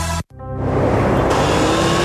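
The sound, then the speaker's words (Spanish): Motorcycle engines roar along a road with a 50 km/h speed limit. After a brief drop-out, a loud, steady engine drone builds and holds. “Dos motociclistas, Alberto y Julio, conducen por una vía con límite de 50 kilómetros por hora.”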